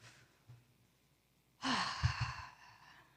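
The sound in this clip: A deep breath taken in and let out: a faint, soft inhale, then a fuller, clearly audible exhaling sigh that gradually fades.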